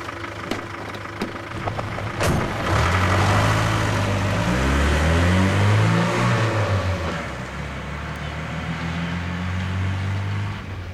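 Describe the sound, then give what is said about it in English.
A pickup truck speeds down the road, its engine roaring loudly. The engine pitch swells and shifts as the truck accelerates past, then settles into a steady drone. “The truck speeds down the road.”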